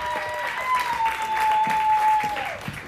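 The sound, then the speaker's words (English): Audience applause at a stand-up comedy show as a comedian is introduced, a steady wash of clapping with a long, sustained whistle-like tone running over it. “Y'all make some noise for my close friend, Mel Glimmer.”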